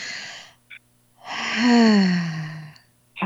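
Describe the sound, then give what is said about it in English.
A deep inhale and a long, audible exhale during a guided healing meditation. A brief breathy intake is followed by a voiced, sigh-like out-breath whose tone sinks slightly before trailing off. “So we're taking a deep breath, inhale and exhale.”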